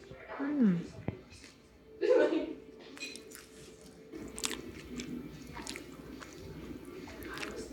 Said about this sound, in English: I have to say, this is the first time I taste green onion cake in Edmonton.